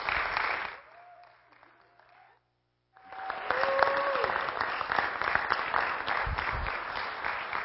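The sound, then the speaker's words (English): An audience rises to its feet and applauds to welcome a pastor. Loud clapping fades, drops to a brief silence, then resumes as a full, steady ovation that holds to the end. “So I would just ask that you would all raise to your feet and give Pastor Clark a welcome.”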